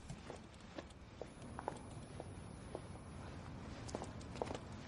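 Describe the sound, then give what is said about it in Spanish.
Footsteps of two women walking along a street: many faint, irregular taps spread evenly over a soft, steady background hiss, with no voices. “Las dos mujeres continúan andando por la calle y Tikva”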